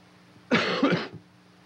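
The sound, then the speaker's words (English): A short, harsh burst of coughing, loud and alone, with a sharp onset and a rough second push before it stops abruptly. “Oh, the coughing guy.”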